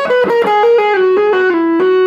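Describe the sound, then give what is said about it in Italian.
A distorted electric guitar plays a hammer-on between the fifth and seventh frets in a quick run of sustained, overdriven notes that step mostly downward in pitch. “praticamente poi un hammer tra il quinto e il settimo tasto, quindi in questo modo,”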